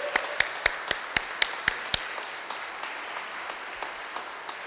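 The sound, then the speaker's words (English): A church audience applauds. Sharp, evenly spaced claps ring out loudly at first, then fade into soft, scattered clapping. “So can we give them a hand because we're proud of them?”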